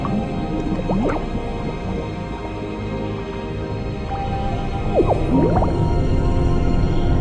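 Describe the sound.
Water droplets floating in weightlessness after a drink from a tube, broken apart by a finger, heard as a few wet, bubbly plinks with upward-bending pitch over a steady hiss.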